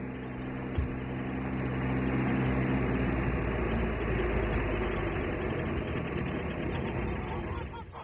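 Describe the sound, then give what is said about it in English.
An arriving car idles with a low, steady engine rumble and a faint hum that holds evenly throughout. “What is it? It's a car.”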